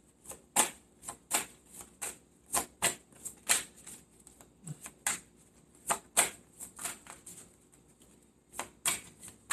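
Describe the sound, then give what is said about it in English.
Tarot cards being shuffled and drawn make many crisp flicks and snaps in an uneven rhythm. The bursts come in quick clusters with short gaps between them, and no one speaks. “May I have one more card for Scorpio, please? Thank you. Taking that one.”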